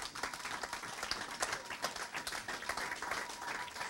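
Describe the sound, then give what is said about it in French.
Applause from a church audience, a dense and steady wash of many hands clapping at moderate loudness from start to finish, with no clear breaks. “Si tu es sûr, acclame encore Dieu.”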